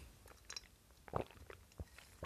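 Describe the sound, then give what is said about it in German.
Quiet mouth sounds of someone taking a sip of tea. Faint wet clicks are followed by a couple of soft, low swallowing thumps. No voices. “Ich muss mal eben einen Schluck Tee trinken.”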